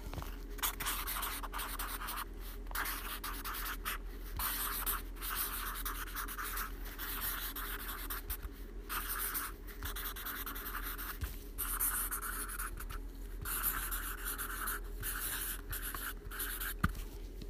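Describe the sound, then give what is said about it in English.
A marker writes a note on paper in continuous, scratchy strokes with brief pauses between them. The many strokes are fairly steady in loudness, with no talk. “That was the sound of a marker writing a note on paper. I was going to use a pen, but you can't hear a pen. And I'm hoping you could hear the marker because that was much louder”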